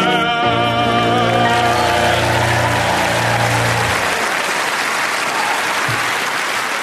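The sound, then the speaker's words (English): A crowd claps along as a song ends. Dense, loud applause fills the whole clip, with held sung and musical tones underneath for the first four seconds that then fade, leaving only the clapping. “And thank you for clapping along.”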